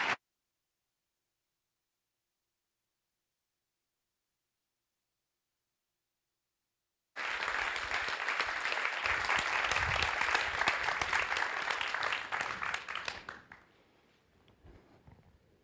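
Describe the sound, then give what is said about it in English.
Audience applause welcomes two speakers at an evening book discussion. It starts abruptly after a long silence, holds dense and steady for about six seconds, then fades quickly to quiet. “Please join me in welcoming Antonio Damasio and Manuel Castells.”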